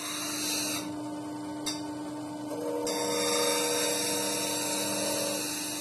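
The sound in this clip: Steady whirring hum of a glass polishing machine in a glass cutting and engraving workshop, a constant motor drone topped by a thin high hiss that holds evenly throughout.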